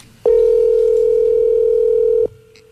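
Telephone ringing tone on an unanswered call: one steady, loud tone at constant pitch lasting about two seconds, starting and stopping abruptly, followed by faint line hum.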